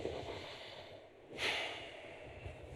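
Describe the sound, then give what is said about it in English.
A deep breath drawn in, a soft airy rush that swells to a peak midway through and then eases off, heard alone over a steady noisy background. “Let's just all get a big breath.”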